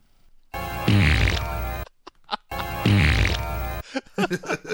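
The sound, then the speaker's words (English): Farting in a comic bathroom scene of a movie: two long, loud, rasping blasts of flatulence, each about a second and a half, end in a sputter. A few short scattered noises follow. “they decide to put in a lot of farting in the sequence.”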